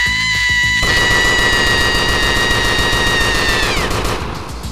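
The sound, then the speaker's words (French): Loud gunfire in an ambush: dense automatic fire that runs without a break, with a steady high whine ringing above it until near the end. “Là, une embuscade ! Aide-moi, tire !”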